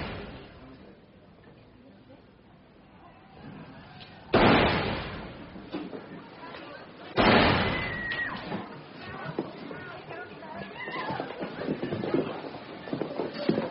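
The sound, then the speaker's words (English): Two gunshots ring out at a county courthouse. Each is a sudden, loud bang with a lingering noisy tail, the two spaced a few seconds apart over a murmuring background. “Shots fired at Cook County Courthouse. Everyone stay put.”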